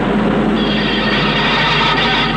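Steady, dense roar of a steam locomotive, a loud rushing rumble that holds without a break for the whole clip, with no voices over it.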